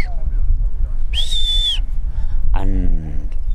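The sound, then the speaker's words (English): A single sustained high-pitched whistle gives a sheepdog the stop command, holding steady for under a second over a constant low rumble of outdoor noise. “The whistle to the left, that's a stop.”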